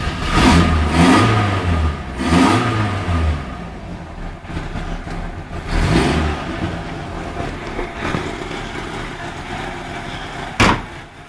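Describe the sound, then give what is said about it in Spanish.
A SEAT 127 car engine revs hard in an advertisement, with a few loud surging revs early on and another midway, settling between bursts, and a sharp click near the end. “Así puede compararse el sonido de este anuncio con el del motor de un SEAT 127.”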